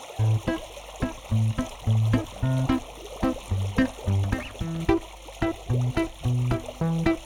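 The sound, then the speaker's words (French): Paddle wheels churn the water of a spirulina culture pond, running in winter mode. Many rhythmic tonal pulses repeat roughly every half second over a wet, splashing wash, fairly loud and steady. “les roues à aubes sont là uniquement pour agiter le milieu et pour avoir de la spiruline sur toute la hauteur d'eau.”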